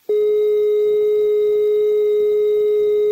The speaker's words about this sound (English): The number unobtainable tone is a high-pitched note without interruptions, like this.